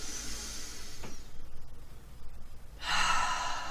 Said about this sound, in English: take a deep breath in. And a big, long, full and complete exhale out. Do that one more time.